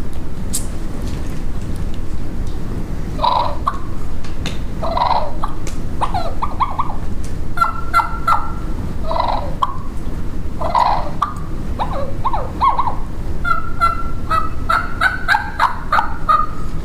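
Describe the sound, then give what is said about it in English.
Soft turkey clucks and purrs from a light two-reed bat wing turkey call, a steady series of short clucks and rolling purrs at low volume over constant background hiss. “we were building clucking purr calls, but it's a 2-lead bat wing, really light.”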